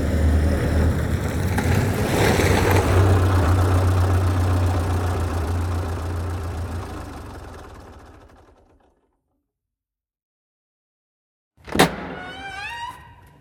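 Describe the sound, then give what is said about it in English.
A car engine running while being driven, a steady low rumble that slowly fades into silence, followed a few seconds later by a sudden sharp swoosh with warbling tones. “And so, on the following Saturday, Saturno the magician drove to La Llorona Asylum.”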